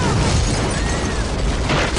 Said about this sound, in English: What is this? Bomb!